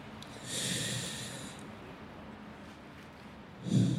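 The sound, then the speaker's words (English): Slow breathing into a microphone during a tenants' eviction vigil: one long, airy breath lasting about a second, then near-quiet, then another breath beginning at the end, with no talk. “So for a moment, I'm just going to breathe right here into the mic, and I invite you to breathe along with me.”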